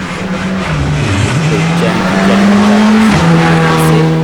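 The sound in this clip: A rally car passes on a stage road during a Ligurian rally. Its engine makes a loud, sustained drone whose pitch wavers, dipping briefly and then holding steady before shifting again.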